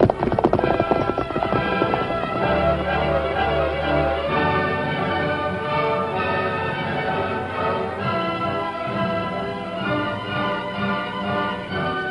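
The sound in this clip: A horse gallops at speed, hooves beating a quick, steady clip-clop rhythm that stays loud and continuous throughout.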